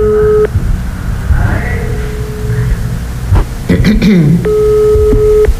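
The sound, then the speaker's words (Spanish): A phone call's ringback tone sounds as two short, steady beeps set about four seconds apart. Voices and background noise fill the gap between them. “Está llamando. Están llamando, petición de la ciudadanía.”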